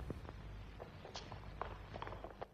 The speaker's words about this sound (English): Rafe runs into the graveyard and joins the other two.